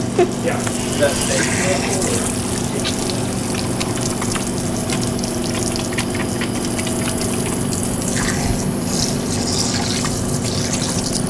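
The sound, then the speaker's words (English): Hands being washed under a running sink tap: steady gushing, splashing water runs throughout at an even level, with small irregular splashes and clicks over a faint low hum. “Oh, I gotta wash my hands.”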